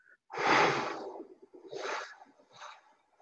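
Three deep breaths during a breathing exercise. The first is long and loud, and the next two are shorter and softer, with no talking.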